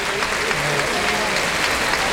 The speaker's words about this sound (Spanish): Mostrándolo al público, el público que aplaude.